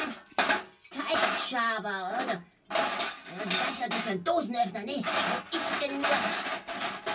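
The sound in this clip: Metal kitchen utensils, a whisk among them, clatter and clink as someone rummages through a drawer of them. The clattering is irregular and busy, with brief vocal sounds and a throat-clearing cough in between.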